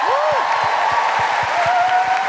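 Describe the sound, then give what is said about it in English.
Audience applause at a live show in the Royal Albert Hall: dense, steady clapping that stays loud for the whole stretch, with a few low thuds underneath. “Please, put your hands together, welcome to stage David the Quavers!”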